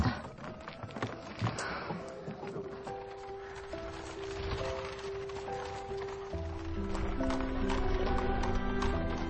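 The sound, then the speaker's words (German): Clip-clop of a horse-drawn carriage driving past, with steady hoof beats mixed under sustained music that grows fuller toward the end. “Wehmütig sieht er der Kutsche hinterher, als sie an ihm vorbeifährt.”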